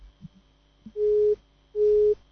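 Telephone busy tone after a call disconnects: two steady, mid-pitched beeps of equal length with a short gap between them, following a few faint low blips.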